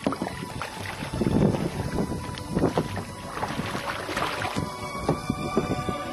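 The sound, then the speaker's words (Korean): A kayak is paddled across the water in Ha Long Bay, giving soft, irregular sloshes and dripping splashes from the strokes. Steady wind noise buffets the microphone underneath, and no one speaks. “카약을 타고 한 바퀴 돌다 보니 이웃 크루즈가 있는 곳까지 왔습니다.”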